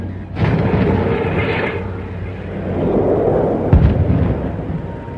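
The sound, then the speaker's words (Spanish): Artillery fire from a gun shooting at a Martian machine in a radio drama: a loud, sustained rumbling blast that rolls on for seconds, with a sharper boom cracking through near the end. “Corregir 128 metros a la derecha. Desviación 31 metros. 31 metros, listo. Proyección 37 grados, carguen. 37 grados, listo, señor. ¡Fuego!”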